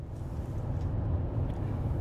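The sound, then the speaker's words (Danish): Car driving, heard from inside, on a trip from DR-byen toward Kirke Hyllinge: a steady, low engine and road rumble that stays even throughout with no other sounds. “Jeg sidder lige nu i bilen på vej fra DR-byen mod Kirke Hyllinge”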